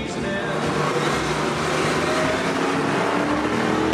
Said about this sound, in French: Vraiment une auto avec laquelle on peut s'amuser sur circuit et certainement aller chercher des Porsche ou autres Ferrari.